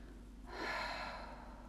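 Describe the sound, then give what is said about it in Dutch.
A slow breath out during a guided relaxation exercise: a soft, steady breathy rush that begins after a short quiet moment and lasts to the end, fairly faint. “Dus we ademen in door de neus. Ga naar dat plekje toe en ademen uit om de spanning los te laten.”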